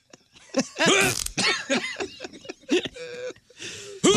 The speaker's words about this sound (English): How about the old cough and toot.